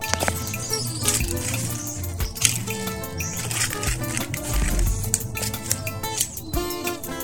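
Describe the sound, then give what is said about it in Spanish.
Water flows steadily in a countryside yard while birds chirp in scattered bright bursts over the trickling wash. “Este es mi agua. Así suena el campo.”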